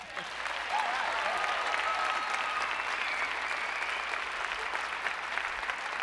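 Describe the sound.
A show audience welcomes a returning soul singer with a sustained burst of applause, a dense, even roar of clapping that swells quickly and holds steady for several seconds at a moderate level.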